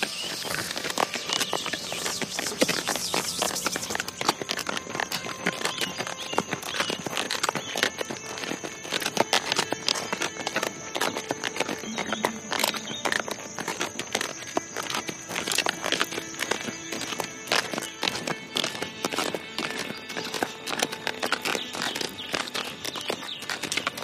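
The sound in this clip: Horse hooves clip-clop continuously in many quick, dense clicks and patters with a crackly texture, holding an even pace and loudness throughout.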